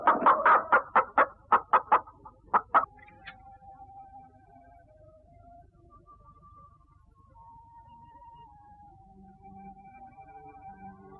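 A hen clucks in a rapid run of sharp, short calls, then goes quiet while a faint, steady wavering tone carries on beneath.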